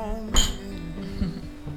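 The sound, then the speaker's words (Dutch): Glasses clink together in a toast: one bright, ringing chink rises over steady background music with low sustained tones, and fainter knocks follow. “Ik zou zeggen, proost er even op. Wij klinken even tegen elkaar.”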